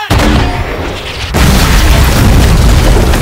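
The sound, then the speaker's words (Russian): A 45 mm anti-tank gun fires in a war film: a sharp, heavy boom with a rumbling decay, followed by a second broad, sustained blast of noise that carries through to the end. “Выстрел сорокопятки ликвидирует пулеметное гнездо.”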